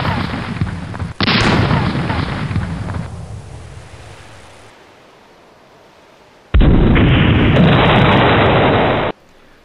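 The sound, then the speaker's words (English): Cannon broadside fired from a ship: heavy, roaring blasts in two long loud bursts, the first dying away slowly before a second sustained barrage cuts off sharply. “Give them a broadside! Open fire! And fire at will!”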